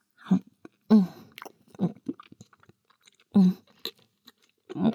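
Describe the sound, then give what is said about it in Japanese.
Someone chews and eats food with soft, wet mouth clicks and small crunches spread sparsely through the quiet, between several short hummed voice sounds. “おいしいかい？まだまだあるからの。遠慮せずどんどん食べるのじゃ。”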